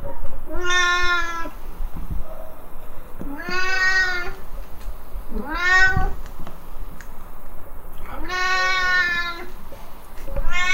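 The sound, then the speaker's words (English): A Siamese cat in a cattery meows loudly, giving a series of long, drawn-out, nasal yowls separated by short pauses over a low background hum. “Now, I did say it was really peaceful and quiet in the cattery, but as you can hear, there's one inmate who is anything but quiet. If you know anything about Siamese cats,”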